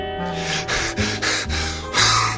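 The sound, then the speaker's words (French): A voice imitates Eurylochus panting for breath after sprinting to the beach, making a few loud, breathy gasps and snorts in an uneven rhythm. “Bon, il a du mal, hein. Il vient de courir pendant 40 minutes. On va patienter quelques secondes le temps qu'il reprenne son souffle.”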